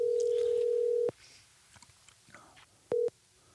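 A telephone ringback tone on an outgoing call to a church pastor's phone: one long steady tone of about a second, a quiet gap, then a second brief tone.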